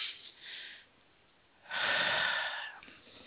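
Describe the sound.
Deep breathing during a guided breathing exercise: two breathy rushes of air separated by a short pause, the second longer and louder than the first, with no talk over them.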